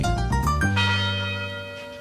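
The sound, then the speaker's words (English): University tower chimes ring out in a quick run of a few struck bell notes, then one sustained, rich tone that hums on and slowly fades. “The University Tower chimes are ringing right up Livernois to the DeWitt House”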